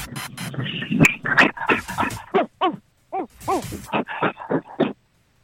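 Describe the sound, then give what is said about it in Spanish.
An old terrier whimpering and yipping, with many short, high, wavering cries in quick bursts that rise and fall in pitch. The cries are broken by brief gaps and grow sparser toward the end. “No, es un perrito que llamó para comunicarse. Probando mi punto. Eso es lo que es un perro viejo. Sí, es un terrier, un terrier. Ese es un perro viejo.”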